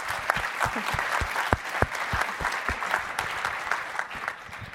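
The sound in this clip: An audience at a talk applauds as a speaker is welcomed to the stage. The clapping is loose and fairly sparse, with distinct individual claps standing out over a steady wash of applause.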